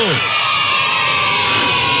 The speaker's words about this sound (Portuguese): Palmas pra todo mundo!